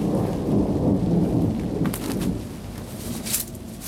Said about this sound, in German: Ein Gewitter, wie ich es noch nicht erlebt hatte.